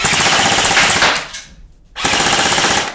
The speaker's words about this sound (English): It's the same weight as a real rifle would be. So it has a single shot where you can fire it just once. And then you also have the ability to shoot full auto.